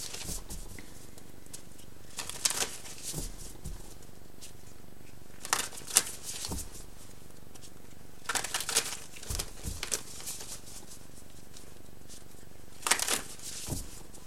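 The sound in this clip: Tarot cards being shuffled and drawn, heard as several separate bursts of papery riffling and crinkling with quiet gaps between them and no voices.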